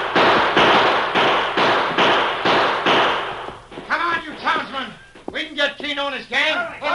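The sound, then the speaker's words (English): Guns fire repeatedly at retreating outlaws in a Western drama scene: a rapid string of loud, sharp blasts for about three seconds, after which the shots stop and a voice begins speaking. “his guns blazing away in the direction of the retreating outlaws.”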